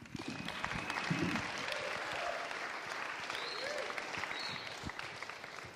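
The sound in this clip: Applause from an audience greeting a guest on stage: a steady, moderately faint round of clapping with a few scattered vocal cheers mixed in.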